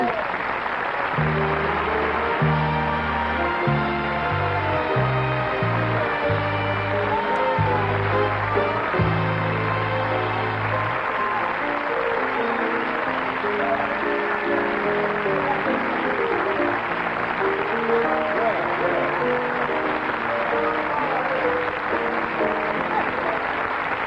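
Studio audience applause welcoming Jack Benny onstage, a dense, steady clatter of clapping that carries on without a break, with band music sounding beneath it through the first half.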